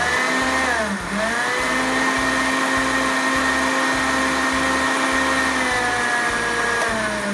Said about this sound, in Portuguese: Agora eu vou tirar do fogo, vou pegar o manjericão fresco que eu já tinha deixado aqui e vou bater essa abobrinha com cebola e o manjericão fresco.